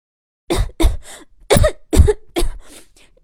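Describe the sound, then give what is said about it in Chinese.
A voice imitates a sick rabbit lying in bed, coughing in a series of harsh, abrupt bursts. Several loud coughs are spaced about half a second apart, with weaker hacks between them, after a moment of silence. “狮子兔闭着眼睛，一边咳嗽一边说”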